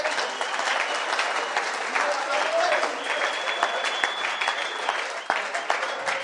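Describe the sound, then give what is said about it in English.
A church audience clapping their hands during a service, sustained crowded clapping at a fairly constant loudness, with voices mixed in among the claps. “Can you clap your hands for Jesus?”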